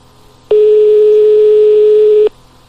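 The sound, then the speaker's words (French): A telephone line tone sounds while a nightclub is being called. It is a single loud, steady, mid-pitched tone that starts abruptly, holds for nearly two seconds and cuts off sharply, with no voices. “On appelle le club discothèque.”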